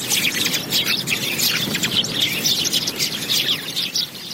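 Many birds chirping in a park, a dense, continuous chatter of high, overlapping tweets and trills over steady background noise.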